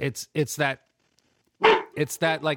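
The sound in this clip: A dog barks in a few short, sharp bursts, with voices around it.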